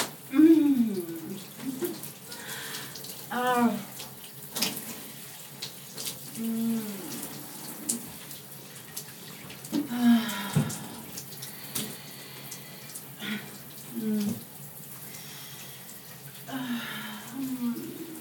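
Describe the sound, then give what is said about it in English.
Running water splashes intermittently while someone washes their hair. A person talks softly throughout over the water. “I think washing my hair is part of it all.”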